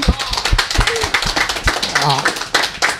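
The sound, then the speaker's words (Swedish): Scattered applause from a small group, with irregular, sharp claps running throughout and a voice speaking over them partway through. “Så det är värt en applåd, tycker”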